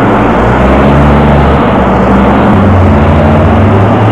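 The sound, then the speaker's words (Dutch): A water cannon truck reversing into a narrow side street to turn around gives a loud, steady low engine drone with a deep rumble, continuing unbroken throughout. “De waterwerper gaat nu achterwaarts de Schadestraat in om te kunnen keren.”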